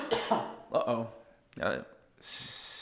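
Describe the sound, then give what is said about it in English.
Harsh, violent coughing from someone with a tickly throat during illness: a few forceful, separated bursts, then a steady hiss. “That was a violent cough.”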